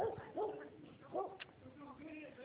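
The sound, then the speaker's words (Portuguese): Dog barking in a few short, yelping bursts with whimpering tones, of moderate loudness and mixed with a person talking. “Eita, cachorro”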